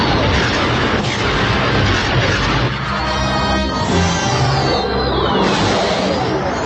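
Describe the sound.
Dense, continuous roar of heavy gunfire and explosions from a war movie battle. The loud din holds steady throughout rather than breaking into separate blasts.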